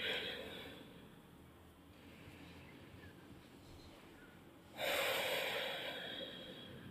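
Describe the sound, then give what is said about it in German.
A deep breath drawn in and released during a guided relaxation exercise: a soft, airy inhale at the start fades, then a louder, rushing breathy exhale swells near the end and slowly tails off. “Ganz tief einatmen und aus.”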